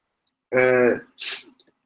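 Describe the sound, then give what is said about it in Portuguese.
A single sneeze: a voiced, rising 'ah' intake followed by a short breathy hissing burst, fairly faint and heard alone against silence. “Espirrar.”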